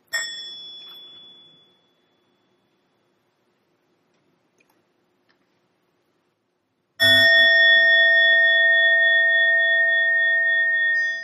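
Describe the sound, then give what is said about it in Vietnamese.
Mindfulness bell struck twice: a clear, bright metallic ring that fades out over about two seconds, several seconds of silence, then a second, louder strike whose rich tone keeps ringing to the end. “Lắng lòng nghe tiếng chuông huyền diệu đưa về nhất tâm.”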